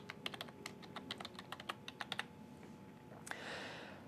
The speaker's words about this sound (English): I then need to specify the admin password, so I'll type that in and then confirm it.